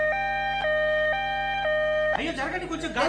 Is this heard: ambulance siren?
yes